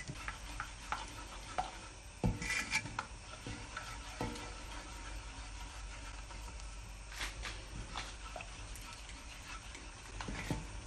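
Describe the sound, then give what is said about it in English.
Raspberry jam with sugar boiling in a pan, a faint steady bubbling hiss with scattered soft pops and a few louder clicks, with no talk. “Yeah, so it's coming to the boil. It's cooking nicely. It looks like it's starting to thicken actually”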